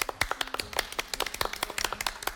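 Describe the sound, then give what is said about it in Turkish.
Quiz show contestants applauding, a small group clapping by hand, with many distinct, slightly irregular claps at a quick uneven rhythm, fairly faint. “Aynı zamanda yarışmacılarımızla birlikte bir alkışlar mıyız Mete Gazoz'u?”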